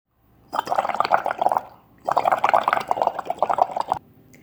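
Water splashing and bubbling in two long, loud bursts separated by a brief lull, the second ending abruptly, with no voices.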